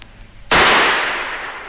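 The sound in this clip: A single pistol gunshot rings out after a quiet lead-in, a sudden loud crack followed by a long, slowly fading ringing tail.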